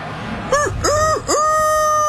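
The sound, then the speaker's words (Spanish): A rooster crowing once, a loud multi-syllable cock-a-doodle-doo with short rising and falling notes that end in a long, held high tone, over a low steady background noise. “Como está el gallo hoy, Jofre.”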